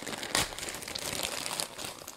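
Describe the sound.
Paper crinkling and rustling as a mailed parcel is unwrapped, a continuous run of irregular crackles and crisp rustles with one sharper crunch near the start, fairly faint and without speech.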